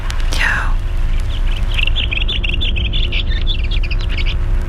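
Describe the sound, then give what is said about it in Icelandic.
A bird singing its song outdoors: a fast run of high, thin chirps and twittering notes over a steady low rumble, carrying on for several seconds without talk. “Þessum fugli syngja sínar arjur. Já, eigum að heyri í honum aðeins?”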